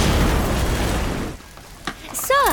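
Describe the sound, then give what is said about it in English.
Grenade explosion: a loud, broad roaring blast that fills the first second and then fades away, leaving a quieter stretch broken by a couple of brief, sharp sounds near the end. “I've got grenades bigger than your ego. Want to see them work? Too late.”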